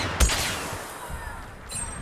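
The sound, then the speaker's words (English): Gunfire rings out in a video game shooter as scoped rifle shots are fired at enemies moving through a forest. One sharp, loud shot comes early, then a few fainter reports follow over steady background noise. “Ooh, just shot someone didn't kill him though.”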